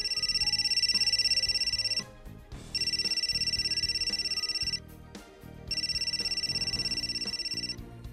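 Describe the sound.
A telephone rings in three long, steady electronic bursts separated by short pauses, fairly quiet and with no voices.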